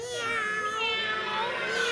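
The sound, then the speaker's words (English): Cats meow as they trail behind a boy pulling a fish along, their high, wavering cries overlapping in a steady, continuous chorus that rises and falls in pitch throughout. “Hey, why are all these cats following behind me?”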